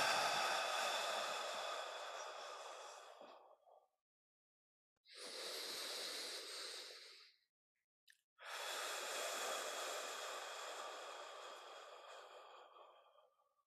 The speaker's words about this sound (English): We inhale and exhale. Let go of sadness, let go of grief. Inhale and exhale.